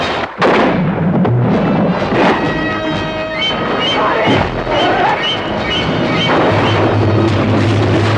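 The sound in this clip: Gunfire erupts in a loud, chaotic scene while someone closes in fast on a large creature, with a couple of sharp bangs near the start and midway over dense, continuous roaring noise and low rumble.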